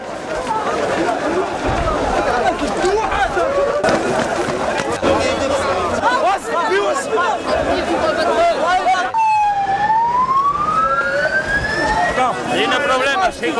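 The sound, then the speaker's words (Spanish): Chaotic shouting of thousands of migrants racing toward the port of Ceuta early in the morning, a loud, unbroken roar of voices, with a siren wail rising in pitch through the second half. “Es una muestra de la fotografía sonora de lo que ha sucedido en Ceuta a primera hora de esta mañana, la carrera desordenada y caótica de miles de migrantes tratando de llegar al puerto de la ciudad.”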